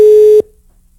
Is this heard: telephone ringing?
yes